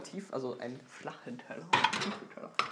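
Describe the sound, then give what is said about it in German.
Ceramic clatter as large plates are lifted one-handed out of a stack of dishes, with a few sharp clinks and scrapes under ongoing talk. “So, jetzt muss ich mit einer Hand die großen Teller oder einen großen Teller rausnehmen.”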